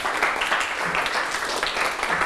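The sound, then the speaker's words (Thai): Students in a classroom applaud a classmate for correctly answering a maths question about bank interest. Brisk, continuous clapping from many hands stays at a steady level throughout. “ปรบมือให้ลัลนาหน่อยครับ”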